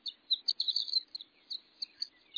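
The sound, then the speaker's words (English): High, tinkling song of a male horned lark hovering and circling in flight over an open landscape of short grasses: many quick, bright chirping notes in an unbroken, jingling run, fairly faint and with no other sounds. “A male-horned lark. It must be 100 feet in the air, hovering, wings fluttering, circling against the blue sky.”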